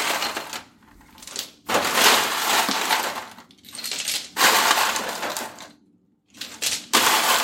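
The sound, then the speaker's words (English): Ice cubes poured into a canvas Lewis bag, heard as several loud bursts of clattering, rattling crunch separated by short pauses. “We have purchased a Lewis bag. We're now going to put some ice in it.”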